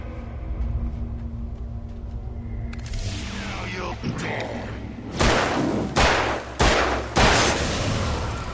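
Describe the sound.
Gunfire in a video game: after a rumbling, noisy stretch, four loud, sharp shots ring out in quick succession near the end.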